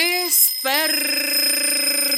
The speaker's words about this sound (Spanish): despertador